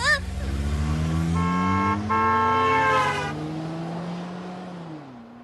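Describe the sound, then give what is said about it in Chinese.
A car accelerates hard, its loud engine note climbing steadily in pitch for several seconds before dropping off near the end. “坐稳了啊，加速了。”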